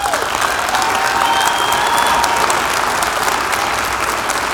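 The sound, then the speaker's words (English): Applause from a church audience welcoming a bishop to speak, a steady, even roar of many hands clapping that stays loud from start to finish without letting up. “let's all put our hands together and welcome Bishop Ed Gunger as he brings the first part in our series.”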